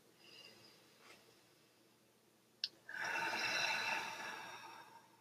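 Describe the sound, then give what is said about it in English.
A person draws a deep breath at the start of a meditation, a long, soft, airy rush lasting about two seconds after a brief click, with otherwise quiet surroundings. “So start with a deep breath, and you can join me if you want.”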